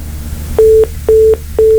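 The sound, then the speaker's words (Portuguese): Disconnected-call tone on a radio call-in line after a caller drops: three short, evenly spaced beeps, steady and mid-pitched, over faint background hum. “Caiu a ligação aí, nós vamos seguir.”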